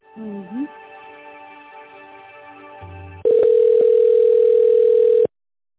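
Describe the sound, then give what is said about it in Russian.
A steady single-pitched line tone sounds for about two seconds while a business phone call is transferred to a specialist. It comes after a quieter humming stretch and cuts off abruptly. “Одну минуту, я вас переведу на специалиста.”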